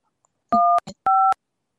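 Telephone touch-tone dialing: two steady dual-tone beeps, each about a quarter second long, with a brief click between them and silence around them.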